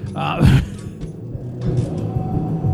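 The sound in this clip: Slot machine being played in a bar, the lever pulled with no win: a sharp mechanical clunk near the start, then a longer rattling, creaking whir and low rumble of the reels.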